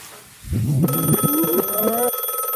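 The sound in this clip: A telephone ringing: bright electronic tones in a few stepped pitches over a steady high ring rise out of a quiet hum, loud and alone without talk.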